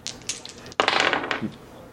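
Dice roll for a perception roll in a tabletop role-playing game: a few light taps, then a sudden short burst of rattling clatter that tapers off within about a second.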